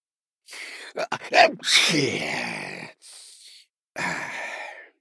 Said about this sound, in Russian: Плотник громко чихнул